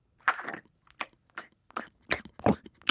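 Chewing on a cabbage and beetroot cake, with many irregular, crunchy mouthfuls that come in short bursts separated by brief pauses, moderately quiet and with no talking.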